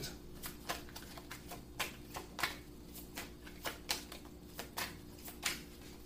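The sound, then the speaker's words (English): Playing cards being shuffled and drawn during a card game: many soft, quick paper clicks and riffles at an irregular pace, fairly quiet over a low steady hum. “May I have 3 more cards, please?”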